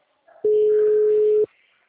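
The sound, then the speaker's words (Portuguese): Telephone line tone as a call drops and goes on hold: a single steady, low electronic beep lasting about a second, rising out of faint noise and cutting off cleanly. “Ui, caiu. A ligação entrou em modo de espera.”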